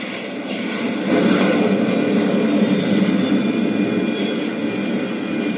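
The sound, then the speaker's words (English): A spaceship's braking rockets fire as the craft settles tail first onto the moon's soft pumice-dusted surface, producing a loud, continuous rushing roar that swells slightly early and then holds steady, with no voices. “Skillfully, Flash manipulates his craft's braking rockets. The soft pumice dust of the moon's surface is going to make the landing hazardous. Slowly, the ship settles down, tail first.”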